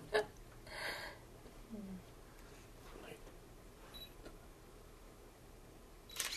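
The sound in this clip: Faint camera shutter clicks as someone's photo is taken at an anti-war peace gathering, a few soft, brief snaps spread over low background noise.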